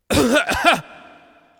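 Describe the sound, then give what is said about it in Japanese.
A person gives a couple of short, loud coughs in quick succession, harsh throaty bursts followed by near silence. “ちょっと咳を”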